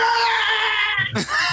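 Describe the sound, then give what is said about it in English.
A voice imitates gnomes screaming on a carriage roof: a high, strained, sustained squeal that wavers in pitch, then breaks into a short, rougher lower burst near the end. “in the distance, you can see two gnomes on the roof of one of the carriages just screaming and going”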